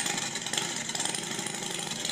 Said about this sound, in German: Ja, das ist eine Vergaser, die da jetzt läuft. Dann sind es zwei verschiedene. Hier steht auf jeden Fall Harley Davidson Fatboy.